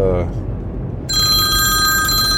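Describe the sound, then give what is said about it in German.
A telephone rings for an incoming call, its steady, bright electronic ringing tone starting partway through right after a brief stretch of talk and continuing to the end. “Oh, jetzt ruft die Frau zwischendurch an.”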